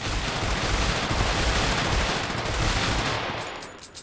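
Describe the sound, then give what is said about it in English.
Sustained rapid gunfire as a gun is emptied until it runs out of bullets, a dense unbroken burst of many shots lasting about three seconds before abruptly stopping. “You used up all your bullets. And you still fucking missed.”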